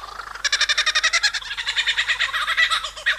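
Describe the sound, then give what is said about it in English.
A male lyrebird gives a courtship display call in a forest. It is a rapid, pulsing run of bright, ringing notes that repeats in quick bursts, slightly uneven in pitch, for about three seconds with no voices. “eavesdropping as a male lyrebird starts showing off to attract a potential mate.”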